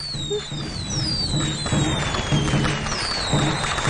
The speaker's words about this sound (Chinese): 俾啲烟花我。